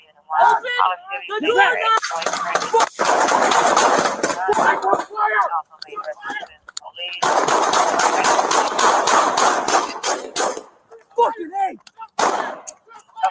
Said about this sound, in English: Shots fired!